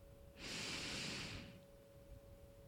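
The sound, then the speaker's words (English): One deep breath is drawn in: a soft, airy inhale that rises and then tapers off, faint and alone over a quiet, steady background hum. “Ready? Take a deep breath in.”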